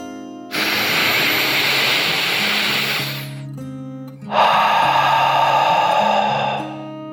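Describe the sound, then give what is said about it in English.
A dragon's deep breath drawn in and then let out: two long, airy rushes, the first about three seconds and the second about two, over soft sustained music tones. “He took a deep dragon breath, in and out.”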